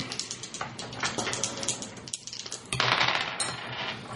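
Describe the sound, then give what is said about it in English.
Two dice clatter and rattle during a tabletop role-playing game, a quick run of many small hard clicks and taps, with a louder burst of rattling near the end. “So you roll two dice.”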